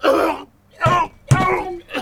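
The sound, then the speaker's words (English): Choking and gagging from a man struggling to swallow bitter chocolate: a few strained, throaty, moaning bursts separated by short gasping pauses. “he's choking! Spit it out”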